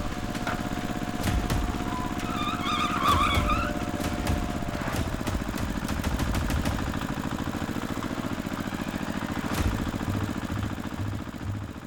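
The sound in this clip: A car engine roars with the accelerator floored, holding a loud, steady, rumbling drone for the whole stretch. A few sharp clicks and a brief chirping sound rise above it.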